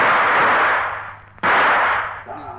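Gunshots ring out in a radio drama: a loud, hissing blast that slowly fades, then a sudden sharp crack followed by another sustained noisy burst that drops away near the end.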